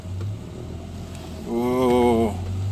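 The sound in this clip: A car driving on a gravel dirt road lined with trees and forest, making a steady rumbling road noise throughout while a man talks briefly over it.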